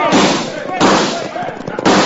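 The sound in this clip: Gunshots ring out in a Western radio drama as bandits ride in on a gold shipment, a few sharp, loud bursts mixed with shouting voices and commotion.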